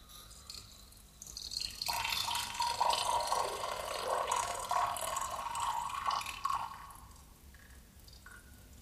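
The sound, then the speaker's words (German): Water sputters through a tap as the pipe runs dry, a hissing, gurgling flow that swells for several seconds and then thins away to quiet. “Warum versiegt das Wasser in der Leitung?”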